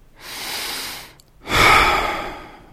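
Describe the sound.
A deep breath is taken in two parts: a softer, airy inhale, then a brief pause, then a louder, longer exhale.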